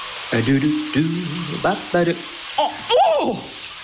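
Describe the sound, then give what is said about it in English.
Cold shower spray hissing steadily throughout, with a voice gasping and yelping in several short, pitched bursts over the rush of water. “That's the sound of a surprise cold shower.”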